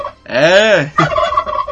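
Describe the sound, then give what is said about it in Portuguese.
A turkey gobbles loudly in a rapid, rattling burst, followed by further rougher throaty calls. “Eita, peru, velho! Que peru! Esse é um dos meus, né? Fala um pouquinho pra nós aí, peruzinho, vai! Olha lá, mais uma vez aí.”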